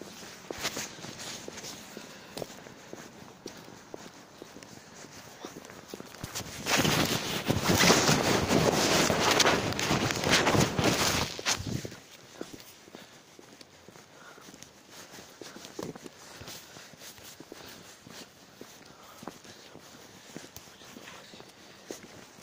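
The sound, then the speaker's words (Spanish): Footsteps of a person walking home, a steady run of soft steps throughout, with a loud rushing burst of wind over the middle stretch before the steps carry on alone. “Por eso ahora estoy solo caminando y voy para la casa, loco.”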